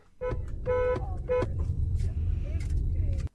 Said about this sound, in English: Thanks for WhatsApping in your horn sound to us on Late Lunch.